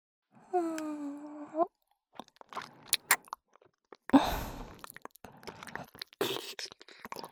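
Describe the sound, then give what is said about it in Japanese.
Wet mouth sounds of ear licking in ASMR, starting with a brief voiced sigh, then a series of soft clicks, smacks and breathy slurping bursts in an irregular rhythm, close and quiet with no talk. “今からくっさいこの耳を舐めてあげますね。”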